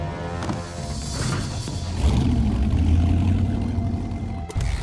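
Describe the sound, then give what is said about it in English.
Motorbike engine roaring as the bike jumps off a quay onto a boat and rides over crates in a James Bond chase scene, with the roar growing louder midway and a sharp thud near the end. “Bond jumps the bike off the quay onto a boat, rides over some crates, jumps onto another boat, then abandons the machine.”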